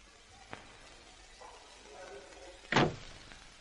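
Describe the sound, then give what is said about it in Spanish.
A door is closed in a hospital patient's room: one sharp, loud thud near the end. A faint click comes earlier, and quiet background noise runs throughout. “El detective cierra la puerta.”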